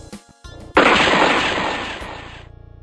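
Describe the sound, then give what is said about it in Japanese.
A single loud gunshot from a handgun fired in a tense confrontation, with an abrupt, sharp crack that decays into a long fading tail. “まさかあかりちゃんがいたに銃を撃つとは思わなかったよ。”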